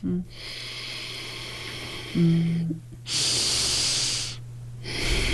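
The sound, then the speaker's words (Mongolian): Nasal breathing during a breathing exercise, drawn in and pushed out through the nose as a steady airy hiss. A few long breaths alternate, with one louder, brighter exhale in the middle and a low hum underneath. “Хамраараа амьсгаад хамраа гаргана.”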